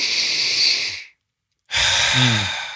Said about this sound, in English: people are watching this on YouTube, my belly is actually going to go out when I breathe in through my nose. So it would look like this.